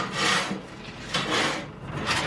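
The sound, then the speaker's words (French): Charcoal is loaded into a blacksmith's coal forge with rough scraping and rasping strokes, three broad gritty swishes at an even pace and no voices. “Là, je recharge ma forge en charbon.”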